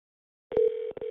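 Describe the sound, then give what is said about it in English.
A voicemail recording tone on a KOCO-TV programming message line: after a moment of silence, a single steady mid-pitched beep sounds alone and holds, broken once by a brief dropout before it resumes. “Record your message at the tone. When you are finished, hang up or press pound.”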